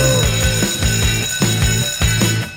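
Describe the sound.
A school bell rings in a classroom as a loud electronic ringing in a fast, regular pulse. Bright tones repeat about every half second throughout, with no voices.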